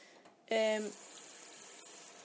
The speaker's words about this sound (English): I've just put my meat in my roasting tray. I'm gonna put some water in it. Not a lot, just a bit.